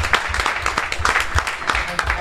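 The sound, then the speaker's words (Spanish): Applause for quiz contestants at a vintage trivia game final: dense, steady clapping from many hands, heard under talk throughout. “Un aplauso para ellos. Para ellos.”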